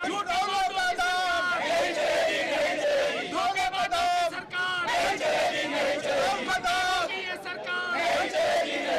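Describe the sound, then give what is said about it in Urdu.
Protesters chant anti-government slogans against Prime Minister Narendra Modi at a Congress party demonstration over rising prices, where his effigy is burned. Many voices shout together in loud, rhythmic bursts that continue without a break. “مرکز سے برخاست ہوئی Congress party نے مہنگائی کو لے کر احتجاجی مظاہرہ کرتے ہوئے وزیر اعظم نریندر مودی کا پتلا نظر آتش کیا اور مودی حکومت مخالف نعرے لگائے۔”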